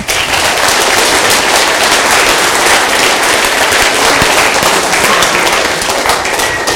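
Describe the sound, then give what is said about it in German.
Loud, dense audience applause at a prize-giving during a tech conference, a crackling, steady roar of many hands that holds at an even level for about seven seconds. “Applaus!”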